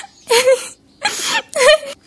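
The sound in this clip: A daughter cries in three strained, wavering bursts of sobbing and whimpering. Each burst is breathy and high, and short silent pauses separate them.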